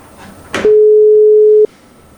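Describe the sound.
Ringback tone of an outgoing telephone call: a brief click followed by a single steady, low electronic tone lasting about a second, then quiet line hiss.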